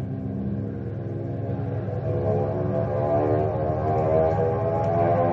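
An airplane engine roars as it goes into a steep dive over a field, a steady harmonic drone that swells gradually louder with no voices over it.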